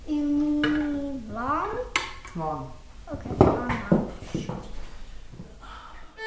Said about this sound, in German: schiebt den Kochtopf mit Gemüse und Kartoffeln aufs Zeran-Kochfeld und trocknet sich die Hände ab